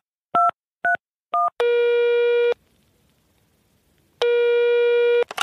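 Answering machine tones before a voicemail message: three short electronic beeps, then a long steady tone, a silent pause, and a second long tone, all clear and alone with no voices.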